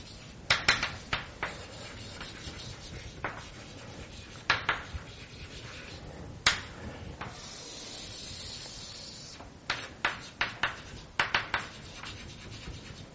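Scratchy strokes of writing on a board: many short, rough bursts in irregular clusters over a faint continuous hiss, with no talking.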